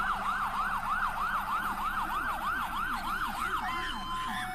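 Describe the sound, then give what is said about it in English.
An emergency vehicle's rumble siren wails in many rapid, regular rise-and-fall sweeps, loud and continuous, with a lower-pitched tone following the same cycling pattern beneath it. “Love that with the sound. With the rumble siren going.”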